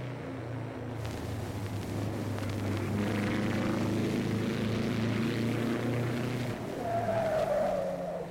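A car driving fast and skidding, with a continuous loud engine roar and a rising, high-pitched tire squeal toward the end. No one speaks.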